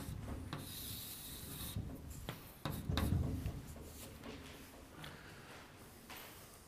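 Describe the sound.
Scratchy strokes of an equation being written out during a maths explanation: irregular rubbing and scraping marks, many short strokes, swelling louder for a moment partway through, then continuing more softly.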